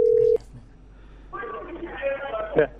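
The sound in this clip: A telephone call tone sounds steadily for about a third of a second as a number is dialled, then cuts off. After a short quiet gap, a voice talks over the line.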